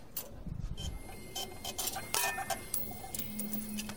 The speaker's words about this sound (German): Jetzt habe ich mein Ticket drucken lassen. Also dieser Ticketautomat ist äh, ziemlich kompliziert.